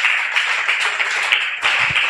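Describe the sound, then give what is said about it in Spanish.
Church audience applauding during a service, a dense, fairly loud burst of many overlapping claps that continues steadily, briefly dipping and then resuming near the end. “Aplauda la presencia de Jesús en esta hora.”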